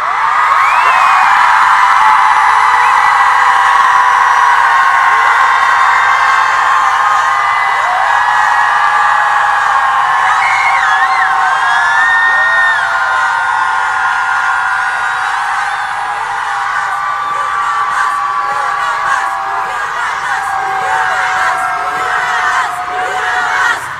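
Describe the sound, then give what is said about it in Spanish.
A crowd of women shouting loudly at a protest: a dense, sustained roar of raised voices, whoops and cheers that runs without a break, strong and steady and easing slightly toward the end. “Vamos a gritar fuerte para que nos escuche el presidente y nos escuchen en todo el mundo.”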